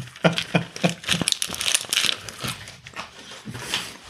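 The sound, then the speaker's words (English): A condom wrapper is unwrapped, giving a few sharp crinkling crackles at the start, then softer, irregular rustling and crumpling of the thin packet, fairly quiet. “She's unwrapping a condom.”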